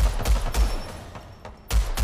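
Rapid machine pistol gunfire in a video game: fast, loud bursts of shots with heavy low thumps, a brief lull with lighter pops, then another burst.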